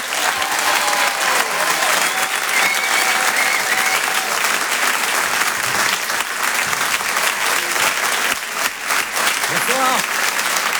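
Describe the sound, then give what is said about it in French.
An audience in a comedy club gives a loud, dense ovation: continuous clapping that holds at a steady level for the whole stretch without breaking. “Je demande une ovation, s'il vous plaît, pour Céline”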